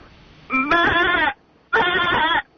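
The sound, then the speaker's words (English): Goat bleating on a farm: two loud, wavering, nasal bleats, each lasting under a second, separated by a short pause. “No, it's his goat.”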